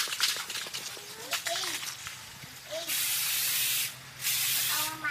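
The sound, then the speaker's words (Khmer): Aerosol spray can hissing as black paint is sprayed onto three brown coconuts hung on yellow string. A few loud, steady hiss bursts, the longest two each lasting about a second. “អ្នកស្រីយកកំប៉ុងថ្នាំពណ៌ខ្មៅបាញ់ទៅលើដង3ដែលព្យួរជាមួយនឹងខ្សែពណ៌លឿង”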